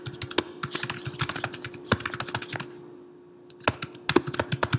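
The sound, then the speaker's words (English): Typing on a computer keyboard: many rapid, crisp keystrokes in uneven bursts. There is a short pause of less than a second near the middle before the clatter resumes. No voices are heard. “It's a hymn to Saraswati.”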